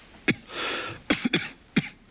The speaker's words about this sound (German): Dein Husten.